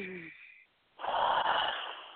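A long, breathy exhalation during a guided breathing exercise, a steady rush of air lasting under a second, following a short voiced sound and a brief pause.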